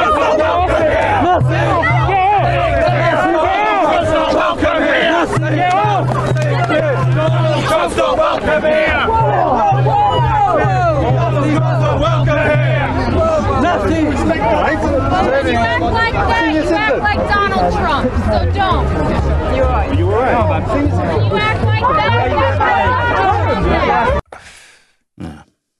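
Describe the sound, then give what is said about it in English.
A scuffle at an anti-Trump rally in the United Kingdom, with overlapping shouting voices, grunts and crowd commotion. The loud, chaotic noise runs continuously, then cuts off abruptly near the end. “It's short, but you can hear the scuffle in the background.”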